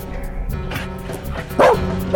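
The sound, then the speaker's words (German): A chained dog at a house barks a few times, with short sharp barks early on and two louder, fuller barks toward the end. “Der Hund.”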